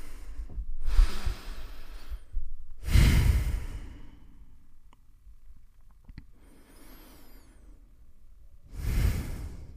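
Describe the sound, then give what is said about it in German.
A group takes deep breaths together: several airy, loud inhales and exhales in slow succession, with quieter breathy noise between them and no talking. “egal ob ihr sitzt oder steht, 3 tiefe Atemzüge gemeinsam nehmen.”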